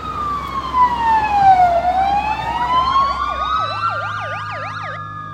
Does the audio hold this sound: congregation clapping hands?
no

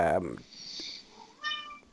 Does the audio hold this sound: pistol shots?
no

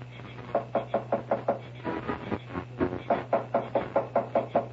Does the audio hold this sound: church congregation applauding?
no

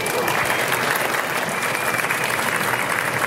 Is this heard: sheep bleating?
no

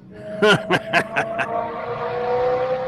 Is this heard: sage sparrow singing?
no

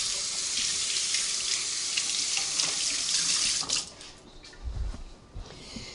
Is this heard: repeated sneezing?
no

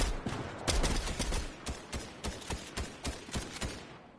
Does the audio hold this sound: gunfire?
yes

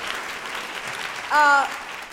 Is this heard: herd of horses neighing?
no

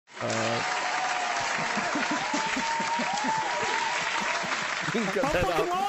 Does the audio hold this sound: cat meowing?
no

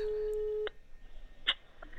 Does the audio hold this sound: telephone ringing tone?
yes

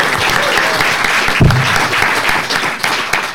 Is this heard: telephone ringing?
no

